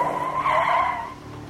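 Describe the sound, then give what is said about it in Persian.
A car skidding while speeding on a dirt road gives a steady, loud squealing whine that holds for about a second before easing off slightly toward the end. “گاز بده، یالا. نمیتونم تونتر برم، برو چاره چوله است، جاده خاکی”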